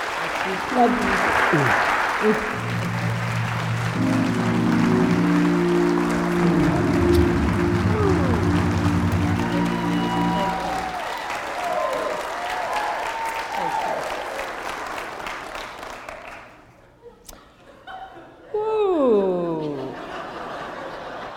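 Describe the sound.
Applause from a church audience at Resurrection MCC welcoming a reverend: loud sustained clapping mixed with chuckles, laughter and voices, fading away near the end as talk and laughter carry on.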